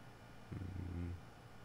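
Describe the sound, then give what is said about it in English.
Cats purring while lying around resting: a faint, low, steady rumble lasting under a second over quiet background hiss. “Can't wait till I get my camera back up and running so I can show you guys the cats again. They're all around me. All sacked out all over the place. Got it while you can hear them in the background on cue.”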